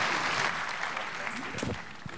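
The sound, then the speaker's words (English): Applause from a church audience welcoming a bishop as he comes to preach: a dense, steady clatter of clapping that fills the whole clip, with some voices mixed in near the end. “Let's put our hands together and welcome him as he ministers the word.”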